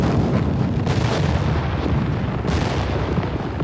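Cannon fire rumbles through a battle, a dense, continuous low roar with a couple of sharper blasts standing out, loud and unbroken for the whole stretch with no voices.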